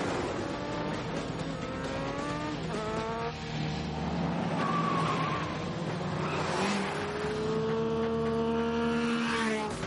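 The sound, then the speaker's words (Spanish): Two cars and a motorcycle drive onto a bridge in an action chase. Loud engines rev steadily throughout, and several whining tones climb and drop in pitch as the vehicles accelerate. “El equipo de Sean entra en el puente en dos coches y él los sigue en moto”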